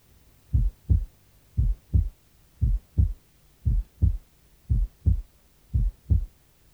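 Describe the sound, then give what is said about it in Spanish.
Heart sounds at the right upper sternal border, or right base, where the single second sound is louder than the first: six steady lub-dub pairs of low, muffled thumps at a slow, regular pace, with no speech. “Base derecha, segundo ruido único más fuerte que el primer ruido.”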